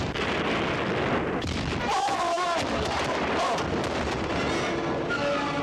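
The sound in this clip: Ship cannons firing in a dense, continuous barrage, the booms blurring into a sustained, rumbling roar with no clear gaps between shots.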